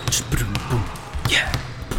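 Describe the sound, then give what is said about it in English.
A basketball bounces on a court during a tryout, with several sharp thumps in an uneven rhythm under talking voices. “The rest of the people at the tryout started bouncing the ball up and down the court”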